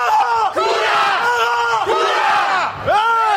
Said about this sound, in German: Ich habe hier auch gerade aus Reflex direkt angefangen mitzupaddeln, weil ich mich so erschrocken habe von diesem Schlachtruf.